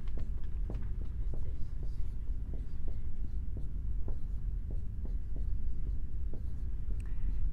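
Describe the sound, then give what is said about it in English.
Marker drawing on a board during a lecture: many short, scratchy strokes in a fairly regular rhythm over a low, constant hum. “And so we're going to draw, here we go, people.”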